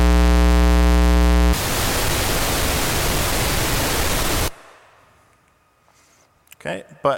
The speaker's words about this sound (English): what the Minimoog oscillators can do, we'll explore each of those sounds here. So we'll have a saw, triangle, square, and then some noise.